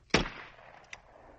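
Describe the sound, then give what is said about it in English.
A gunshot fired from the second-story window of a lodge: one sharp, sudden report with a short decaying tail, followed by a much fainter click a moment later. The overall level is quiet. “They shot her. Somebody from the lodge shot her.”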